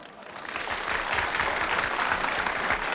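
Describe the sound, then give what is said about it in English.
Applause for a host coming on stage swells within the first half second into dense, steady clapping that holds at an even level to the end. “Give him a big hand, folks.”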